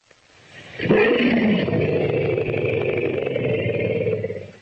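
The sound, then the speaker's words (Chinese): An elephant gives a powerful call meant to frighten predators such as lions: a loud, rough, roaring blast that begins abruptly and holds steady for several seconds before fading. “当大象遭遇狮子这类较为可怕的捕食者时，他们会用强有力的叫声来恐吓这些动物。”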